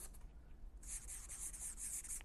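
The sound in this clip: A marker drawing lines on a board. After a brief quiet start, it makes a steady, scratchy rubbing hiss that continues to the end.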